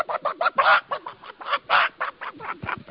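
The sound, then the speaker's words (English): A human voice imitates chickens squawking as they are pulled backwards by their tail feathers. It is a rapid, rhythmic run of many short, harsh, nasal squawks of varying loudness. “And I'd go out there and them chickens start eating and I'd get them by the tail feathers. And I'd pull them backwards. They go,”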